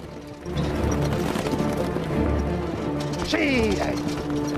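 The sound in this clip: A horse-drawn chariot being ridden, with a continuous rattling clatter of hooves and wheels running steadily under talk.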